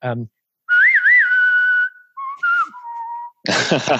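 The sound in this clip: A person whistles a short jingle, clear and loud, with warbling trills, steady held notes and brief pauses. Short bursts of voice come before and after it.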